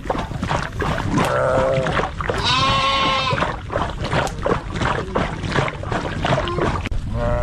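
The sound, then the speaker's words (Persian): Livestock from a nomadic Kuchi herd in Afghanistan bleating, several overlapping cries rising over a steady, noisy outdoor bed, with louder drawn-out bleats near the middle. “بیشتر در این گزارش که با صدای مواشی آغاز می‌شود.”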